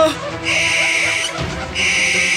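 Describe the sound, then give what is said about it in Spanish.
A fierce-eyed owl screeching: two long, high, harsh screeches split by a short break, with a low murmur running beneath. “Un búho de ojos feroces volaba alrededor de ellos y los tres gritaban.”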